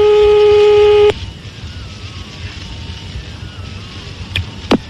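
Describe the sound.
A telephone call tone while dialing someone's mother. One steady, fairly loud buzzing tone of about a second cuts off into low background hiss, followed by a few faint clicks.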